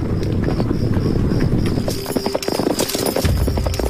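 Clip-clop of horses' hooves as Northern Wei cavalry march quietly through a remote valley: many steady, overlapping hoofbeats, moderately loud and continuous throughout.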